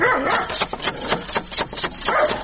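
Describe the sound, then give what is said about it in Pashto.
A dog barks at a house door in a fast, agitated run of many harsh barks with hardly any pause between them. “دروازه ور وټکوم دا څه بد سپی لري”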